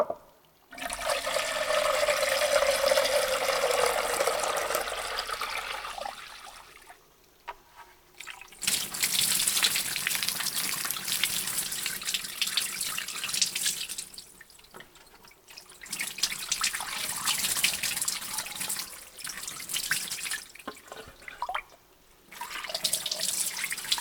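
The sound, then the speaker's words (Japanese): Water poured over a person's back and arms to rinse them, heard as a few long bursts of splashing, running water separated by short pauses, with no talking. “ではお背中を流しまして、カイナと腕をすすぎましょう。”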